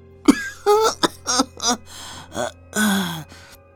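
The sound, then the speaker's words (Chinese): Coughing from an old eunuch, performed by a voice actor: a quick series of rough, voiced hacks and throat-clearing grunts, loud and close together, with no other talking. “老太监咳了两声”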